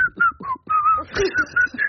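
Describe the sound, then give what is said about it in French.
A person whistles a song tune: a quick melody of short, bright notes that step up and down in pitch, broken by brief pauses for breath, heard alone with no other sound. “Quelle est la règle concernant le sifflotement ? Voilà, est-ce que siffloter est autorisé ?”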